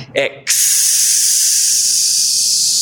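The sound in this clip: Air hisses out of a pierced balloon. A brief voice comes first, then a loud, steady, high-pitched hiss begins suddenly and continues to the end.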